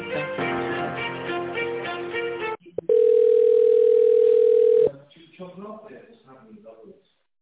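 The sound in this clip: A steady telephone line tone sounds while an office call is transferred to another department. It is a loud, unbroken single pitch lasting about two seconds, with a melodic passage before it and people talking after it.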